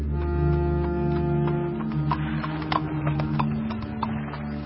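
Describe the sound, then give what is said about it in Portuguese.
Hoofbeats of a saddled donkey walking: many light, irregular clops over a steady low tonal hum. “Então disse para os filhos: Ponham a sela no meu jumento. Eles fizeram o que o pai pediu. Então o velho foi”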